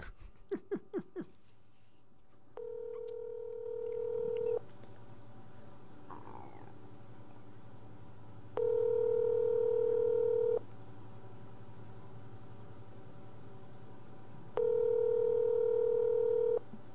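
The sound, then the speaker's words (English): A telephone call on speakerphone: a few brief beeps at the start, then three long, steady ringing tones at regular intervals over a faint low hum. “Oops. I'm dialing the wrong number. I'm like, wait a minute. This should be picking up right away.”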